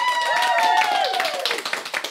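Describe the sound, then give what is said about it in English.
A studio audience claps and applauds at the opening of a competition. The clapping is a dense, steady clatter through the whole clip. “As you can see or hear, we have a studio audience with us today.”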